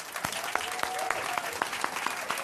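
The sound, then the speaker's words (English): A crowd applauds, producing steady, fairly faint clapping with a few sharper individual claps standing out from the continuous wash of hands. “if I was a lesser man, I'd be jealous of the fact that she gets more applause than me whenever she goes.”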